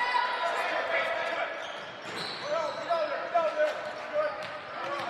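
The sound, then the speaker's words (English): A basketball is dribbled during a game, with bounces under a voice and general court noise. The bounce count is unclear. “In with the dribble”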